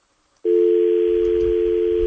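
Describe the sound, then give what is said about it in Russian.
Telephone dial tone on the line: after a brief silence, a steady, loud, unbroken mid-pitched hum begins and holds without change. “Что с этими звонками? Я счастлив, что у нас гудит гудок.”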